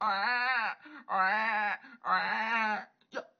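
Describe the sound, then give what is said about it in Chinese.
A newborn baby cries in three long, wavering wails, each close behind the last. A short, faint gasp follows at the end. “有孩子啼哭声。”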